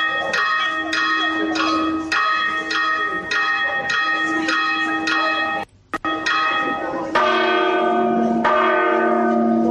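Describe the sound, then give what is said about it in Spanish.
Cathedral bells at Mondoñedo, Spain, ring one at a time, each with its own pitch. Many ringing strikes follow in a steady rhythm with a brief dropout midway, and the tone shifts as different bells take their turn. “Primero sonaban, como nos había dicho el campanero, de una en una. Por separado estaban ahí manteniendo un debate, ¿eh? Cada una con su sonido particular.”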